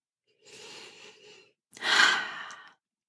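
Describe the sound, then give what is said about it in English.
A deep breath: a soft, drawn-in inhale, then after a short pause a louder, breathy exhale, quiet and alone with no talk. “just take another deep breath”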